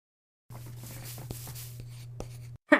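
Drawing on paper during a class activity gives a continuous soft scratching of the drawing tool across the sheet for about two seconds. A low steady hum runs underneath, and a brief sharp knock follows.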